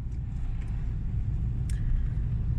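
Steady low rumble of a car driving on a long road trip, a continuous droning hum of engine and road noise with no talk.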